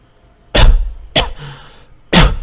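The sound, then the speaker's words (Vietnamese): A wounded woman coughs three times, each a short, harsh burst separated by pauses of about half a second to a second, with no other sound between them. “sau đó ho vài tiếng.”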